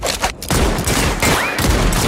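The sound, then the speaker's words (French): Gunfire in a Western action scene: a dense, sustained volley of loud overlapping shots that barely pauses, with one brief drop near the start before the firing resumes and carries through to the end. “On les flingue.”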